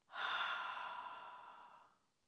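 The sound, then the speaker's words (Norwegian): A deep breath taken during a relaxation breathing exercise, heard as one long, soft, airy breath that swells quickly and then fades out steadily over about two seconds, alone and fairly faint. “Pust godt inn gjennom nesa og ut gjennom munnen.”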